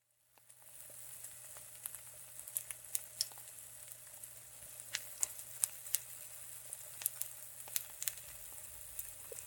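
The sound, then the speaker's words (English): Stir fry sizzles in a pan with a steady, faint hiss punctuated by many sharp pops and crackles. “Stir fry is okay, yeah? I didn't really have the strength to make anything else tonight.”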